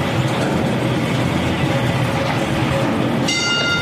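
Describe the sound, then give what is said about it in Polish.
A signal bell in a deep mine shaft, rung to the hoist machine operator, sounds once near the end, its bright ringing tone cutting through a loud, steady rumbling roar that fills the whole clip. “Te sygnały to są sygnały do dzwonki. Porozumiewa się sygnalista z maszyną wyciągową.”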